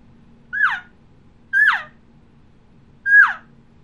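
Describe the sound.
Three short elk calf calls, made by a caller imitating a lost calf. Each high, thin bleat rises briefly and then slides downward. The calls are spaced about a second apart over a faint low hum.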